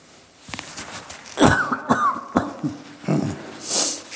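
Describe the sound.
Coughing from a tickle in the throat: a few sharp, dry hacking coughs in quick succession, fairly loud, with no talk.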